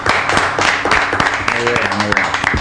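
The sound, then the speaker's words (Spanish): Audience applause for a departing guest on a Spanish-language talk show: a busy patter of clapping with voices talking over it and a brief tonal sound partway through. “Otro aplauso para Ramón,”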